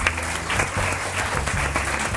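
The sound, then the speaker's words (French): Short burst of audience applause at a live talk show with a studio crowd, thick and steady clapping at a constant, fairly loud level for about two seconds. “On peut l'applaudir.”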